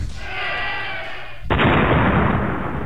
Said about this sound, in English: Can't decide, is that explosion killing the crowd? I didn't decide, I just thought it was funny, so I put it in there.